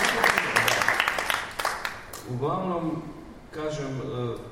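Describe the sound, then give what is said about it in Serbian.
Applause for a performer: a round of scattered clapping from an audience for about two seconds, fading out as someone begins speaking over the remainder. “Ajde, jedan aplauz za tebe.”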